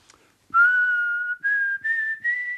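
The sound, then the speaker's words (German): A person whistles through pursed lips, first one long sustained note and then three shorter notes, each stepping slightly higher in pitch. The tones are clear and pure, separated by brief gaps. “Sag mal, wie machst du das eigentlich? Das klingt sehr schön. Wie ich pfeife? Ja. Na, das ist doch ganz einfach. Wie? Einen Mund spitz machen und durchblasen.”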